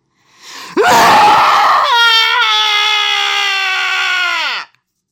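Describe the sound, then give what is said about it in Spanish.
A man's wild scream: after a short rough burst, a loud, sustained, strained wail holds a steady high pitch for about four seconds, then cuts off abruptly. It is heard alone, with no other sounds. “Y en eso uno de ellos lanzó un grito salvaje.”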